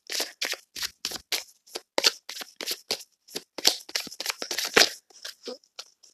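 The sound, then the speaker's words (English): Tarot cards are being drawn and shuffled by hand. Many crisp, irregular bursts of brushing and snapping card noise come in quick clusters with short pauses, fairly soft and with no talking. “Going to pull for a few more cards.”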